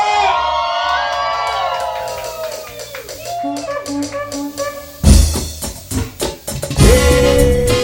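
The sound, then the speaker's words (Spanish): Live party-show audience cheering and shouting, breaking out in loud, ragged bursts over the second half after a stretch of tonal, voice-like sound. “¿Dónde está la bulla del público?”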